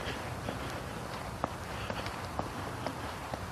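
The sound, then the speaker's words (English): Footsteps of a person walking on the second mile of an outing, a steady, evenly spaced series of faint soft steps over a constant background hiss. “I'm just thinking and walking, and sounds like I'm poking along.”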